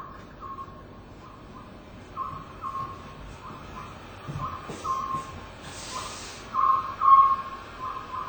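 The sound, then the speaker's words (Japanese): Oriental scops owl calling near the upper Tama River on Mount Mitake: many short, faint hoots repeated at a steady rhythm over a constant background hiss. “昔はこの声から仏法僧と呼ばれていたこの家族の声が流れてきます。ここは多摩川上流の御嶽山です。”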